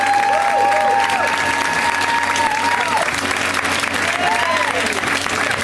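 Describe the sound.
Audience applause for a comedian being introduced on stage: steady crowd clapping and cheering throughout, with a few high whistles rising above it.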